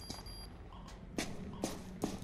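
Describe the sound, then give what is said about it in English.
Faint footsteps of someone climbing the stairs in a burnt building, a few soft thuds at an unhurried pace over a low hiss. “The cop moves a burnt beam out of the way and goes upstairs.”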